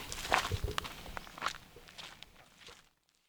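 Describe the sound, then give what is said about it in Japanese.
Footsteps walk downhill along the Mikaeri road in Japan: a quiet series of soft, uneven treads with light scuffs that fade and stop shortly before the end, leaving silence. “見返り道路という名前がついてる、ちょっと悲しい名前ですね。そんなところを今歩いて降りてます。”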